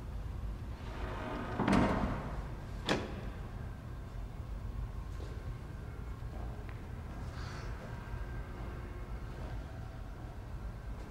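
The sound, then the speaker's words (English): A door being pushed open, heard as two brief knocks or clicks early on over a faint, low background hush, then nothing more. “pushes open the door and hesitates slightly on the threshold.”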